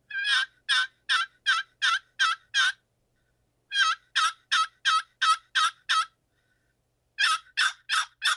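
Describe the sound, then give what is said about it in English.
Turkey tree yelps made by hand on a turkey call: three evenly paced series of short, raspy, high yelps with pauses between them, the last series cut off, soft and without voices. “I'm going to do a little tree yelp with it. And it's going to just be a little bit softer, slower version of the yelp.”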